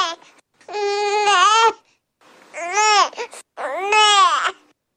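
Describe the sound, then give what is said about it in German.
A baby vocalizes to ask for milk: a brief whimper, then three drawn-out, whiny cries with wavering, rising and falling pitch, separated by short pauses. “Mit diesem Laut ne bestellen Baby ihre Milch.”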